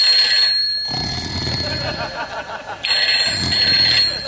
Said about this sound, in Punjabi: ਕੋਲ ਟੈਲੀਫੋਨ ਦੀ ਘੰਟੀ ਖੜਕੀ ਜਾਵੇ